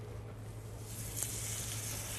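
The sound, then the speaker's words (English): Batter sizzling in an oiled hot pan on medium heat, a soft, quiet crackling hiss that swells a little partway through over a faint low hum, with no voices. “Move the pan around just to get the oil all over the pan. Now I'm going to bring down the heat to medium heat. Okay, I'm going to put the batter right on top of the pan.”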